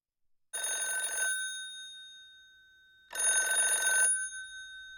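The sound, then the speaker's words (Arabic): A telephone rings in two bursts, each about a second long, with a bright, steady electronic trill and a pause of nearly two seconds between them; no voices are heard. “في اليوم التالي تلقى الراوي مكالمة هاتفية عاجلة من الوكيل العقاري”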